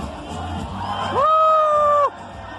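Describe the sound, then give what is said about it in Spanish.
An enthusiastic audience cheers and whoops at a comedic performance. A loud sustained yell rises over the crowd noise for about a second midway, then cuts off. “El público enfervorecido le pedía más y él decidió hacer caso a las sutilezas.”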